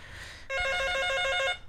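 A telephone bell rings for an incoming call: one loud, rapid trilling ring lasting about a second, heard alone after a brief low hum.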